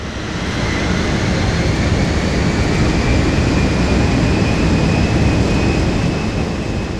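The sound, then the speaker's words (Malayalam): An airplane landing, heard as a loud, steady, unbroken roar with a thin high whine running through it from start to finish. “ഓസ്ട്രേലിയക്കാർ എന്ന് ലോകം മുഴുവൻ അറിയപ്പെടുന്ന ജനതയെ ഒരൊറ്റ ശബ്ദം കൊണ്ട് അടയാളപ്പെടുത്തണമെങ്കിൽ ഏറ്റവും യോജിച്ചത് ഇതായിരിക്കും പറന്നിറങ്ങുന്ന ഒരു വിമാനത്തിൻ്റെ ശബ്ദം”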